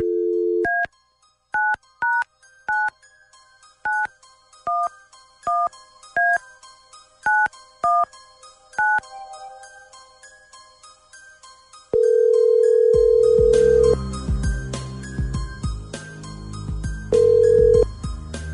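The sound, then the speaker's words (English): Touch-tone keypad beeps as a phone number is dialed at random: a brief dial tone, then a quick string of bright dual-tone presses. After a pause, a steady ringing tone sounds, then sounds again over background noise. “stand by. Dialing at random.”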